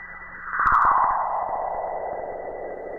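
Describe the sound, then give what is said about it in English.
Radio emissions from solar flare electrons, recorded by the Cassini spacecraft on its way to Saturn and played as sound: an eerie whooshing tone sweeping steadily downward in pitch, with a brief flutter of rapid clicks near the start and no voices. “This is the sound of one of those solar flares that we've been bombarding the Earth recently, and it was recorded by the Cassini spaceship, a spacecraft probe on its way to Saturn.”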